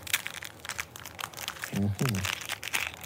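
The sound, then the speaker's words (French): A wrapped cookie is opened slowly, its packaging crinkling and crackling in many small, soft bursts, with a voice briefly speaking partway through. “Je te laisse ouvrir ce cookie. Tout doucement, attention, ils sont faits avec amour.”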